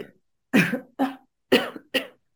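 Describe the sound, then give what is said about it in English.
Four dry, raspy coughs in two quick pairs, loud and alone with no talk, each burst dropping off sharply before the next. “if you heard those coughs, that's just, sometimes I just breathe out and the coughs are there”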